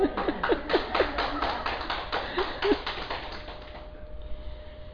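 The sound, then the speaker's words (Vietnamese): Many sharp hand claps in an even rhythm from a group clapping before a song, with voices talking over them; the claps stop after about three seconds, leaving quiet background noise. “Sao không vỗ tay trước này? Trước khi hát cùng vỗ tay mà sau khi hát cùng vỗ tay á.”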